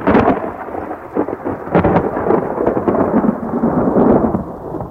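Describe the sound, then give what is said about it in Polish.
Thunder rumbling in a winter storm with lightning and falling snow: a loud, continuous rolling rumble with a few stronger surges, mixed with a steady rain-like hiss. “Zagrzmiało.”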